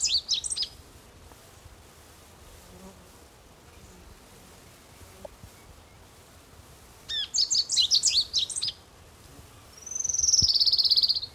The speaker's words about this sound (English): I believe it likes sparrow singing.